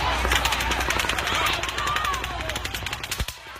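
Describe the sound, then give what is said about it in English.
Rapid bursts of automatic gunfire ring out during the mass shooting at the Route 91 country music festival in Las Vegas, where people fled. The dense crackling volleys run almost continuously, with indistinct voices mixed in. “This is the sound of people in Las Vegas trying to save their lives. They went out for a night of country music at the Route 91 Country Music Festival and found themselves in the way of the largest mass shooting in U.S.”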